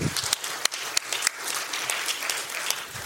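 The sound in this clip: Audience applause welcomes a speaker onto the stage: a dense, steady patter of clapping with a few sharper claps standing out, moderately loud throughout.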